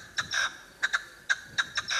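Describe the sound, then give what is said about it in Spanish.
Partridge call played in an animal-sound guessing game: a quick run of short, scratchy, high-pitched chirps, several falling in close pairs, fairly faint against a quiet background. “Eso es una perdiz.”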